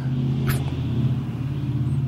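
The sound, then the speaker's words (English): Low, steady engine rumble of a car driving by outside, holding level throughout the short stretch. “somebody's car driving by. It's Will's. Yeah, it must be Will's car.”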